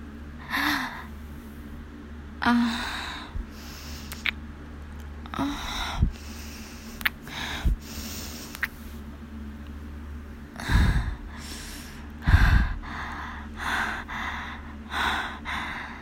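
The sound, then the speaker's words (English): Hot, heavy breathing close into the ear, slow repeated breaths with gasps, sighs and soft snorting exhales rising and falling over the whole stretch, with no talk. “You like that hot breath in your ear, don't you? Gets you so hot and edgy.”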